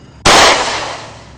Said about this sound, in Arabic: طلقة تانية. صوت الرصاص عمال يكسر سكون الليل، عمل زي صوت ضرب المدافع.